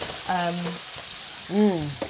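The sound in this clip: Ribeye steak frying in olive oil gives a steady, bright sizzling hiss throughout, with two brief voiced sounds rising over it.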